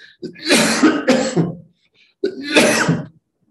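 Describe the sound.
A person coughs and clears their throat. A harsh run of a few coughs is followed by a short pause, then another rough burst. Each sound is loud and clear against silence.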